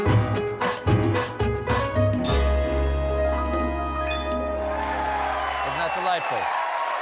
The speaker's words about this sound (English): Not everybody. Not everybody gets a standing ovation, baby. Look at that.